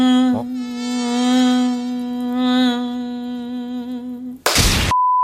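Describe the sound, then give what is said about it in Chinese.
An annoying mosquito buzzing indoors in summer: a steady, whiny drone with a constant pitch and rich overtones that holds for about four seconds, then ends in a sharp burst followed by a short, steady tone. “那我们可以学习一下蚊子的叫声啊。你看夏天到了，对吧？家里面呢时不时就会钻进一只非常讨厌的蚊子，对吧？”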